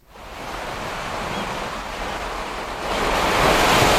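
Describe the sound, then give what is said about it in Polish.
Calm ocean waves on a coast with a flat horizon: a soft, continuous wash of surf hiss that swells slightly louder toward the end, with no voices. “Przenosimy się na wybrzeże, by spojrzeć w płaski horyzont spokojnego oceanu.”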